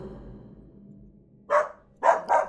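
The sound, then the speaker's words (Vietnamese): A dog barks from the garden behind a house at night: three short, faint barks, one and then a quick pair, follow a quiet stretch of low background hum. “Một tiếng chó sủa từ sau vườn vang lên.”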